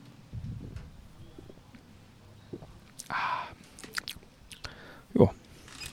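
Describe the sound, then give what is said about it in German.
A sip of Afri-Cola, a cola soft drink: a brief soft slurp, then a few faint mouth clicks and a louder swallow near the end, over quiet background noise. “Ja, wie schmeckt uns denn nun diese Afrikola? Ich nehme nochmal einen Schluck.”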